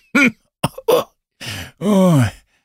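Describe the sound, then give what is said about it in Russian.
A man coughs and clears his throat in a few harsh, rough bursts, then lets out a drawn-out voiced groan, loud and alone without other sounds. “Ой, этот кашель. Он скоро развалит меня на части.”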